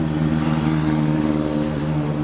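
Steady traffic rumble from nearby freeways, a constant low droning hum with a tonal engine-like hum in it, holding an even loudness throughout with no talking.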